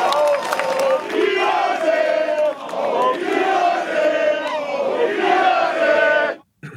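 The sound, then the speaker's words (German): Football fans chant in unison against their own club's management, a loud, rhythmic crowd chant with repeated phrases that breaks off abruptly just before the end. “Ja, das klingt wie bei einer, wenn's 4-0 im Derby steht. Da wird das auch skandiert, aber diesmal geht's gegen die eigene Führung.”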